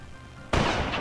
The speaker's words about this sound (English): That was some horrible CGI blasting right there. Oh, God, I really shot you.